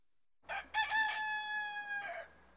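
Rooster crowing during a Christmas-season caroling performance: a single loud crow with short opening notes, a long held middle note, and a brief final call.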